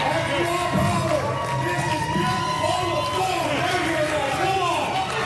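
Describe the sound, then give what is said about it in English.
An excited audience cheers and shouts at a strongman competition in the Saskatchewan building of the Lloydminster Exhibition Center, a dense, unbroken roar of crowd noise with many raised voices yelling over it throughout. “Let's hear it, guys! Come on! Excited audience members pack the Saskatchewan building of the Lloydminster Exhibition Center, eager to see the display of grit and determination.”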